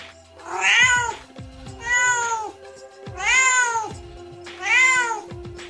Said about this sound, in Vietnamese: Trong lồng truyền ra tiếng kêu của mèo con, rất nhỏ và náo loạn.